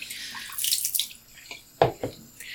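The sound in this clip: Running water while color film negatives are washed: an uneven, hissing trickle that comes and goes, broken by a few louder splashy bursts. No talk is heard.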